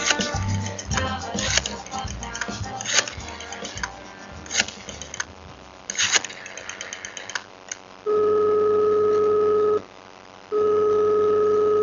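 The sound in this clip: Telephone ringing on an outgoing call, heard as two long, steady electronic ring tones separated by a short pause, following a brief music jingle.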